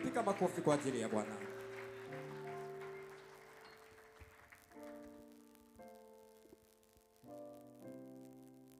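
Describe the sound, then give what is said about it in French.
Church audience at a prayer vigil applauding to acclaim the Lord: brisk clapping at the start fades within about two seconds into sustained keyboard chords, everything fairly faint. “Pendant qu'il s'approche, nous acclamons le Seigneur.”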